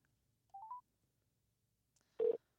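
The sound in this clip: Keypad tones as a telephone number is dialed: a quick cluster of faint beeps, then a pause and one more brief tone.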